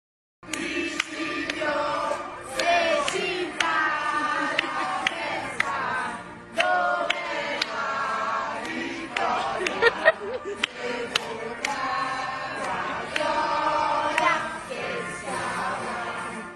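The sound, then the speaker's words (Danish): Italians singing together from their balconies: a crowd of many voices carrying a melody, with shouts and chatter mixed in, continuous and fairly loud. “så synes jeg, vi skal prøve at høre et klip med nogle italienere, der stiller sig ud på deres altaner, og så kan du forklare os lidt mere om det.”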